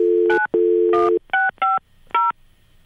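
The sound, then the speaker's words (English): Telephone keypad dialing tones: a steady low dial tone broken by several short, bright touch-tone beeps in an irregular rhythm, each one clear and loud, with brief silences between the later presses and no talk. “Maybe I'm not supposed to dial a one.”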